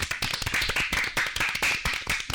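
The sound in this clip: Applause for a correct answer at a quiz contest: dense, crackling hand claps from a group, steady and fairly loud across the whole stretch, with small swells and dips but no pause.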